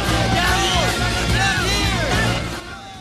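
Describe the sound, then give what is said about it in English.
Galley slaves below a ship's deck yell together in overlapping, wavering shouts during a fight aboard. The cries ride over a steady low rumble and stay loud before easing off near the end. “Galley slaves yell up from below.”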